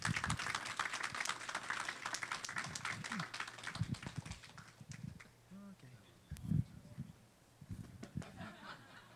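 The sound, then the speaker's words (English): A church audience applauds a guest preacher as he is welcomed to the pulpit, dense clapping over the first few seconds before a voice begins speaking. “Dr. Lewis is going to preach for us this morning, so let's give him a big hand.”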